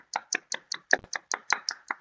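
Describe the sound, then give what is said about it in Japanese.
Ten evenly spaced hand claps follow a guest's appearance on a radio show. The claps are sharp and quiet, each one distinct, with a steady rhythm and nothing else heard around them. “せっかくね登場してくれたのでダーチャオさんに拍手。”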